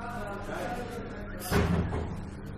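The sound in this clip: A door slams shut with a single loud thud about midway as someone enters during a lesson, after a stretch of voice, and the sound fades quickly.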